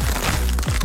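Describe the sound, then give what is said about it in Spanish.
Crisp crunching of Costa Rican tortilla chips being bitten, with a few short crackling bursts packed into under a second and no talk. “Atrévete a probar el sabor único de Crunch, las tortillitas chips más crujientes, saludables y sabrosas.”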